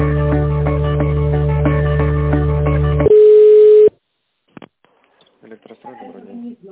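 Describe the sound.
Telephone line tones play while a call is transferred: a buzzy multi-tone signal holds for about three seconds, then a short steady pure beep, followed by near silence and faint voices.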